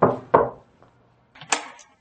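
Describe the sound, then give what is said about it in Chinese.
Knocking on an apartment door on the fourteenth floor: a few sharp knuckle raps in two short groups, with a pause between them and no voices. “再次敲响了那户房门”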